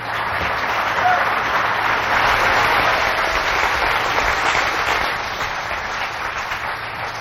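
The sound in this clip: A Calvary audience applauds to welcome speaker Chuck Missler, a dense, hissing wash of many hands clapping that swells, holds steady and then eases slightly toward the end.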